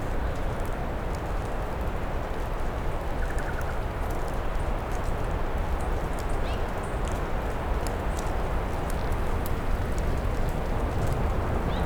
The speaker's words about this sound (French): Vous percevez le bruit de fond incessant de l'eau.